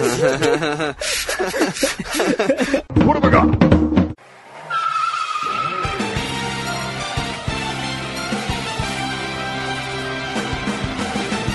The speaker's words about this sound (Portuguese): É o som de carro, é.